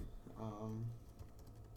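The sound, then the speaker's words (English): Faint keyboard typing as someone types a note down, soft clicking keystrokes that run alongside a brief voice. “I have a question about the NFC East I'm going to ask you a little later. I'm actually going to write it down right now.”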